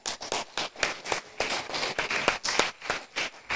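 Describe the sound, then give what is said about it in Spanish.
A church audience claps in a quick, steady rhythm. The sharp, even claps run at roughly three per second throughout, with no voices. “Yo ahí sí les voy a decir que viene un aplauso para ustedes.”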